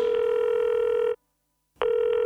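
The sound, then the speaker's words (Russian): A telephone dial tone sounds while calling home. It is a loud, steady electronic tone that breaks off for about half a second of silence, then resumes with a click. “Домой маме звоню, а в ответ”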